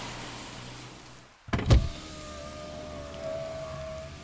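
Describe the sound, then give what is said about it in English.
A coupe's power window rolls down with a brief click and low thump, then a steady electric motor whine that runs to the end over quiet background noise. “A darkened figure pulls up alongside me in a cozy coupe and rolls down the window to gesture to me.”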